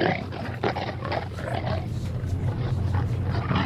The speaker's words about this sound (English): A lion lunges at the man as other diners watch phones aghast.